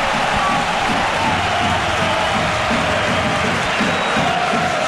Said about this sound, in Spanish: el público se vuelve loco